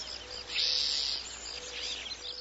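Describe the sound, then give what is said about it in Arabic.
Birds chirp around a woman at dawn, with bright, high-pitched calls and a sustained shrill tone near the start, then scattered quick chirps over a faint insect-like buzz. “انظري إليها والطيور تحلق حولها ثم تحط بقربها. إنها تحكي لها حكايتها كل صباح.”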